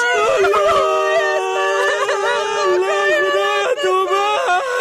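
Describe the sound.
A child crying in loud, sustained wails, the voice sliding up and down in pitch with brief catches and sobs, continuous through the whole stretch.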